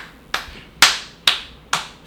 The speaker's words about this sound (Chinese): 我哋唔需要做咩動作，我哋拍手得。